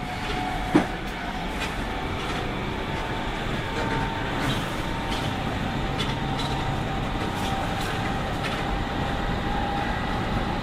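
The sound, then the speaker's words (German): Steady rumble and droning hum inside a regional express passenger car directly behind a class 146 electric locomotive accelerating hard, with steady whining tones running throughout and a single sharp click near the start. “Das ist eine 146.0, die gerade richtig Gas gibt.”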